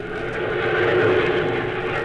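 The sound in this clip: Engines of a large group of aircraft drone together in flight, a loud, continuous low roar that holds steady without breaks.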